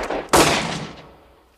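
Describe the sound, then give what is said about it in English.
A single loud gunshot fired in the dark with the lights switched off: one sharp crack whose ringing tail fades slowly over about a second, with no voices. “Sutherland turned the lights off just long enough to shoot Kurgo, who falls to the floor”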